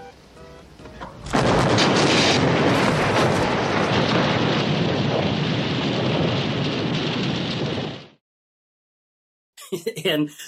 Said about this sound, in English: And Magnum's friend is exploded in Magnum's Ferrari.